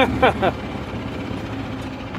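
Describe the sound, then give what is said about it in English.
A gas golf cart engine runs on a golf course with a steady low idling hum, after a brief voice at the start. “So how many miles a gallon do you get in this hog? I get about 55 shots per gallon.”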